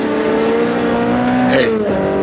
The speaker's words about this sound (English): A sports car looked like a Simonetti. I couldn't tell. Went by me too fast. Must be doing close to 90 or 100, heading west on Trumbull.